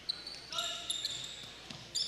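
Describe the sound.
A basketball is dribbled on a court during a game, giving a few soft thuds mixed with high sneaker squeaks. The whole clip is fairly faint.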